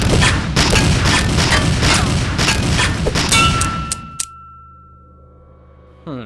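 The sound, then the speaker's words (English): Bullets from a gun strike a metal shovel held up as a shield, in a dense, loud volley of rapid shots lasting about four seconds. A sustained metallic ringing tone then lingers and slowly fades into quiet. “You blocked those bullets with your shovel.”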